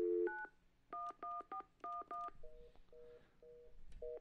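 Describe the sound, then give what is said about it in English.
Telephone keypad tones beep in a quick run of about seven presses while dialing 911 then 411, followed by a repeating lower busy tone that pulses on and off, fairly faint with no talk. “I'm gonna try dialing 911-411. Let's see what happens here.”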